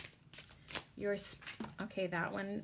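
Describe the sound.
Tarot cards being shuffled for a reading, a few quick papery riffles and brushes at the start, followed by a person talking softly.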